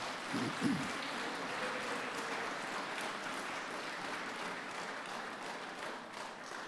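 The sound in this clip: Sustained applause from an audience thanking a choir: a faint, steady wash of many hands clapping, evenly textured throughout without pauses.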